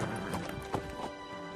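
A horse gallops with quick hooves clip-clopping, a few brisk, fairly faint thuds in a rapid uneven rhythm over a low background.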